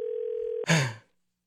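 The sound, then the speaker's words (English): A telephone dial tone holds as a steady, even hum for just over half a second, then breaks off into a brief, louder noisy burst that fades quickly to silence. “is going to dial a number here”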